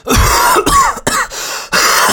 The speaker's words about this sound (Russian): Начал было Хасан, но вновь разразился страшным кашлем.